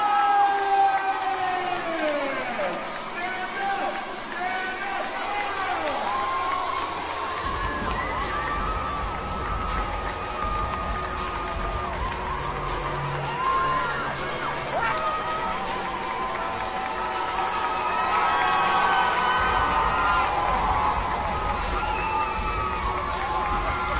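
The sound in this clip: A crowd cheers wildly in a church sanctuary, a continuous loud roar of shouts and whoops with voices mixed through it.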